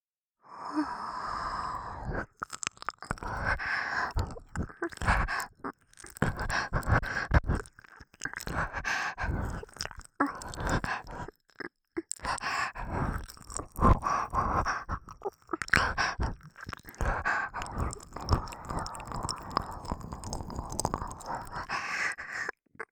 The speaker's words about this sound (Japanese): あんたが大好きな耳舐めの時間